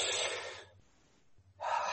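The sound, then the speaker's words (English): Deep cleansing breaths, two long airy rushes of air separated by a quiet pause, steady and fairly loud, with a faint low hum underneath. “I want to encourage all of you just to take a deep cleansing breath. So do that with me.”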